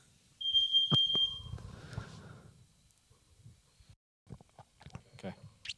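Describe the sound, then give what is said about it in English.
A carbon monoxide alarm sounds one high-pitched electronic beep lasting about a second, amid low rumbling, scattered clicks and faint voices. “We had a carbon monoxide alarm going off.”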